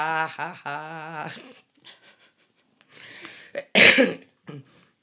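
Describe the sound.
A wet, phlegmy morning cough: a few harsh, rough bursts that come after softer breathy and voiced sounds, with the loudest burst near the end.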